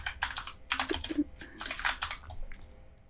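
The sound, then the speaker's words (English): Keystrokes on a computer keyboard as a field label is typed into a form: quick clusters of crisp clicks separated by brief pauses, moderately loud and alone. “where it says field label, underneath that, you can type in what you want to record. So we'll go ahead and say warranty date.”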